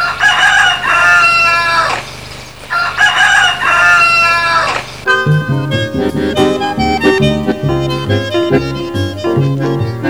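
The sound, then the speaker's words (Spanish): A rooster crows loudly twice, each call a long, strained cock-a-doodle-doo, and then music begins and carries on to the end. “Después que canta el gallo.”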